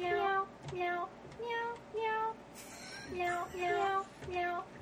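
Meow-like notes play the Happy Birthday tune as a steady run of many short, tuned cat-style tones that step up and down in pitch, moderately loud and with no talk over them.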